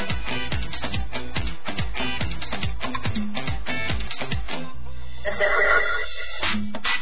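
A telephone rings for a new incoming call on a call-in line, giving a loud, rapidly repeating electronic ring pattern with a muffled, narrow sound that runs steadily for several seconds.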